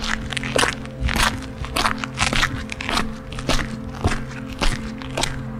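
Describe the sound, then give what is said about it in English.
Footsteps crunching over gravel on a path through outdoor gardens: a steady series of crisp, crackly steps at walking pace, each a short gritty burst, with a low steady hum running underneath. “You walk over gravel.”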